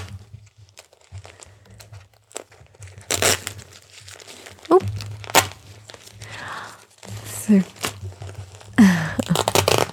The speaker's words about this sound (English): So let's get you all cleaned up and in a fresh diaper, little one. I have a nice crinkly diaper for you with a little surprise.